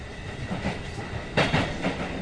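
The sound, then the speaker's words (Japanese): Rail rumble of a train running through a station without stopping: a steady clattering roar that swells sharply partway through, followed by a few further louder surges. “まもなく秋葉原ですが、本日秋葉原で大規模なイベント開催中であり、ホーム上混雑が予想されますので通過させていただきます。”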